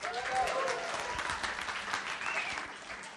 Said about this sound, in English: let's make a great, great loud welcome for Pastor Craig